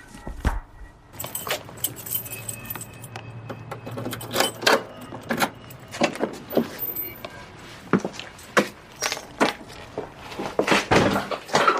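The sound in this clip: A spare key jingles on a ring and clicks in a lock as a house door is unlocked and opened, with many irregular metallic rattles and sharp knocks.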